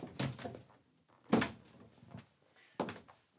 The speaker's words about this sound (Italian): Una porta che si apre è, ad esempio, una piccola porta che si apre.